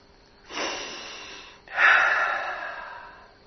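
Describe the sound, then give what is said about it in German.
Two long, deep breaths taken during a guided relaxation exercise, airy and breathy with no voice, the second breath louder than the first, each one swelling quickly and then tapering off gradually. “nimm ein paar tiefe Atemzüge bitte.”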